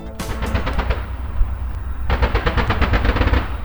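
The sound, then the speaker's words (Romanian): Automatic gunfire from a military firing exercise: two rapid bursts of sharp, loud shots over a low rumble, a short burst near the start and a longer one that runs to the end. “chiar și de trageri, poate nu la fel de vizibile ca cele ale detașamentului Sky Guardians, care erau lângă ei”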